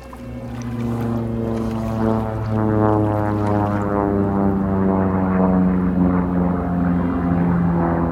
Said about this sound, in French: Des avions de combat se rapprochent.